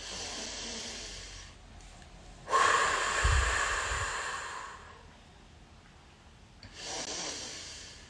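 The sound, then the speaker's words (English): One deep breath in and out: a long, loud rushing breath, then after a pause a shorter, softer breath. No one speaks. “I'm also going to take one deep breath in and out first”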